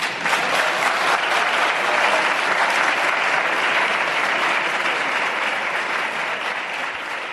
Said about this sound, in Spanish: Ahora Gloria Lizo, de Podemos. Buen aplauso.